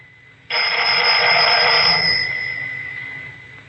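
A telephone bell rings once as a call is placed: a loud, bright, buzzing ring bursts in suddenly, holds for about a second and a half, then fades away slowly, alone and without voices.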